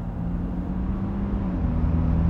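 A car being driven: a steady low engine drone with a constant hum that holds throughout, without other clear sounds.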